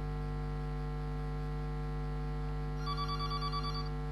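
An incoming call-in line rings with a short, faint burst of rapidly pulsing electronic tone near the end, heard over a loud, steady electrical hum.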